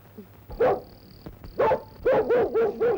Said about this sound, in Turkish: Köpeğim, al al al! Sana mama vereyim, al al al!